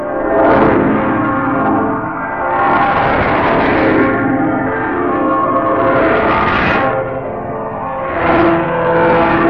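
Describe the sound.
Bells ring on Christmas Eve in a loud, continuous peal of overlapping, ringing tones that swell and ebb in waves without pause.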